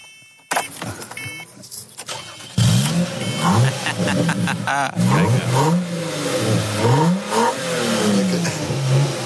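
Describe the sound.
A car engine cranks and catches, then is revved over and over, its pitch sweeping up and down in loud surges that hold steady between blips.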